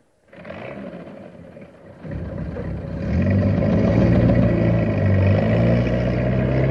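A military tank's engine rumbles as it drives off, circling a burnt-down fire and heading out to the road. The low, heavy drone starts after a brief silence, then grows louder in two steps and holds steady, with no voices.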